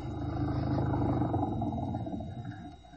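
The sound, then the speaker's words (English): An old flivver pulls up, its low rumbling engine giving a steady, rattling drone that eases off slightly toward the end. “Hop in. It was an old flivver.”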